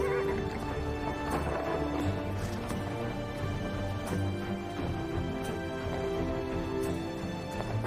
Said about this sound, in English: Val leads the horse outside